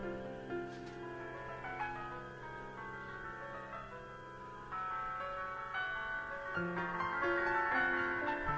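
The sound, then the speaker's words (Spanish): A mobile phone rings with a melodic ringtone of bright, sustained tones that shift from note to note throughout, fairly quiet and with no talk. “¡Suena el móvil!”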